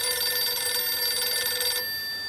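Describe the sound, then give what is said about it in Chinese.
A telephone ringing: one continuous, bright electronic ring of steady tones that stays loud for under two seconds, then cuts off. “池峰城走了以后，孙连仲赶紧给池峰城打了电话”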